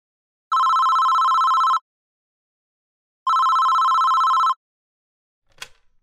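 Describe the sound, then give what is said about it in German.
A telephone rings for an incoming call with two long, loud electronic ring bursts separated by a pause, then a brief click at the end. “Emma ruft Hendrik an.”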